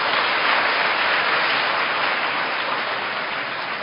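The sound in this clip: An audience of Vietnamese students applauding: a thick, steady wash of many hands clapping at once, loud at first and easing slightly toward the end.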